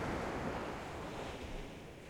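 Ocean waves wash on a beach in a faint, steady rush of surf mixed with wind noise. No voices or other distinct sounds break through.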